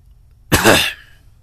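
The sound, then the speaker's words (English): A tickly throat produces one loud throat-clearing cough, a sharp rasping burst that trails off quickly, heard alone with no talking. “Sorry, I don't know why my throat is tickling me.”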